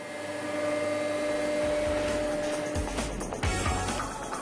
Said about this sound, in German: Die Maschine fräst nun nach der Zeichnung der Azubis die Formen verschiedener Werkzeuge aus der Schaumstoffmatte.